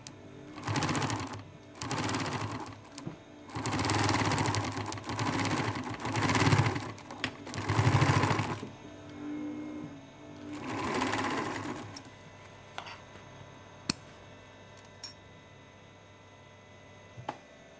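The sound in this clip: A sewing machine rattling while a garment is sewn from microfiber fabric and lace elastic in a sewing studio. Several loud runs of fast, busy rattling are broken by short pauses, then the machine winds down and falls quiet, leaving a few faint clicks.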